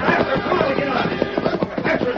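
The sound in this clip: Galloping hoofbeats of a horse ridden hard away from a gunfight, a quick and steady clopping rhythm of many beats at an even, fairly loud level.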